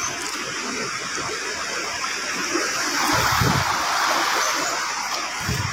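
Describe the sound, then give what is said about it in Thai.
Floodwater gushes up through a wastewater drain pipe during flooding in Mae Sai, making a loud, continuous rushing hiss. It swells slightly partway through, with a few dull low surges. “ให้เฝ้าระวังนะครับตอนนี้ขึ้นทางท่อน้ำทิ้งมาแล้วอีกสักแป๊บนึงเดี๋ยวผมจะอุดละขึ้นเร็ว”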